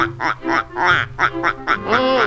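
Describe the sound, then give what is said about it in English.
Ducks quack on a pond in a loud, steady run of many nasal, raspy calls in quick rhythm, with no talk. “A lot of ducks out on the pond. Ducks sure take to the water like, ducks.”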